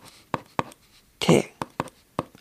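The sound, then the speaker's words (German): Pen writing on a Christmas postcard, a string of short, sharp scratchy strokes and taps separated by brief pauses, with one longer, rougher scribble in the middle. “Das schreibe ich nachher zu Ende. Jetzt schreibe ich hier erstmal die Adresse”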